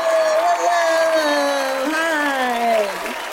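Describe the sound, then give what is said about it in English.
A studio audience cheers and applauds as a comedian is welcomed onto a show: loud, sustained clapping with a drawn-out whooping voice that slides downward in pitch for about three seconds. “Oh, whoa, folks are excited.”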